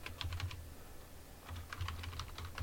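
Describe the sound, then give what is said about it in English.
Typing on a computer keyboard: faint, quick runs of many keystrokes in two bursts separated by a short pause, with no voices. “You have to type in, like, see-through mesh or see-through shirt.”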